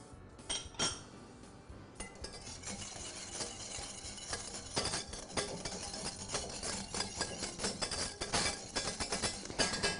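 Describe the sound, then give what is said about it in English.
Whisk stirring a mixture in a bowl while cooking, making many quick, light metallic clinks and scrapes that run steadily through the whole stretch with no talking. “Grab my whisk here.”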